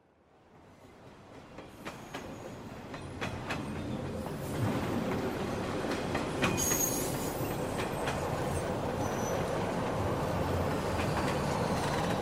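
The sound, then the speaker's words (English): A Westport Rail Line train pulls into Orange Station, its rumble swelling up from near silence into a steady roar, with clickety-clack wheel beats and thin, high wheel squeals over the top. “Westport Rail Line now arriving at Orange Station.”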